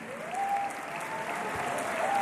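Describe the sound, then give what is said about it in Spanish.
Audience applause at a gala, honouring a behind-the-camera crew member. Steady, dense clapping stays fairly faint and swells slightly toward the end. “me gustaría que saliese aquí a recibir un aplauso para que todo el mundo”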